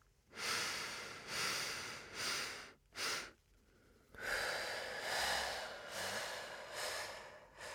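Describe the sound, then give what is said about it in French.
Slow, deep breathing in and out during a guided relaxation exercise: several long, airy inhales and exhales with short pauses between them, then a longer unbroken stretch of steady breath, with no talking. “Et on inspire. Et on expire. Refaites-le encore deux fois.”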